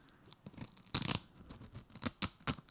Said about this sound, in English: Velcro, no, there is Velcro on it. Is there a Velcro? Oh, there is! I've had this bag for 3 months, so I never realised.